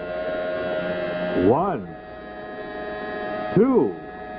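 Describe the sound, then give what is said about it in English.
A new Schick 3-speed electric razor runs with a steady, harmonic-rich buzz, broken twice by brief swoops that rise in pitch and fall back. “1-2-3. That's the sound of the new Schick 3-speed electric razor.”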